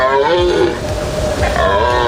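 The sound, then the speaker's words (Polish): Deer stags roaring in a forest during the rut: loud, deep, drawn-out bellowing calls with a rough, throaty tone that swell and fade in long sustained phrases. “Teraz mamy okres godowy jeleni. Byki, czyli samce, chodzą po lesie i ryczą.”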